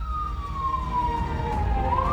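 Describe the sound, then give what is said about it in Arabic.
A Lebanese Red Cross ambulance siren sounds in Achrafieh, a steady wailing tone that drifts slowly downward and then swings back up at the end over a low engine rumble. “سيارة الصليب الأحمر اللي نقل أحد المرضى إلى المستشفيات القريبة بالأشرفية”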